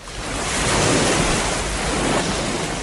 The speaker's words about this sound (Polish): Jestem teraz w Jantarze nad Polskim Morzem. Pogoda dopisuje, jest lekki wiatr jedynie.